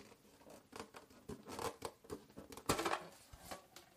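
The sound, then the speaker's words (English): Faint snipping of scissors cutting paper to make cards, a series of short crisp cuts and light paper rustles at uneven intervals, with one louder snip past the middle. “And then I will cut it and make into this kind of cards.”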